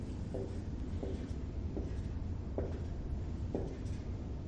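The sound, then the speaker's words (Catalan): Hand-drawing a graph produces several short scratching strokes spaced at fairly even intervals, faint over a steady background hiss, with no talking. “Mireu, aquí, en el graf, ho torno a pintar.”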